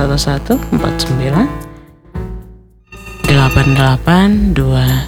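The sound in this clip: A telephone rings for an incoming caller on an Indonesian evening radio call-in show. Bright, ringing tones come in bursts, briefly drop away in the middle, then return loud.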